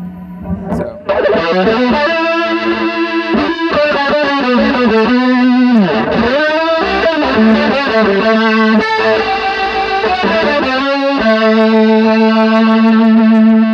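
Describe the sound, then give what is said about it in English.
An electric guitar plays through a fuzz pedal with a DOD stereo chorus pedal switched on, giving loud, thick, distorted chords and sustained notes with a shimmering, wavering tone. A few strums and one downward bend are heard, then a long held chord. “I have a DOD stereo chorus that I use, and sometimes I kick that on with the fuzz.”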